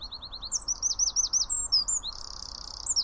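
Wren song of quick, high, bright chirping notes that breaks into a fast, buzzy rattling trill in the middle before more chirps return. Fairly faint over a low background hiss.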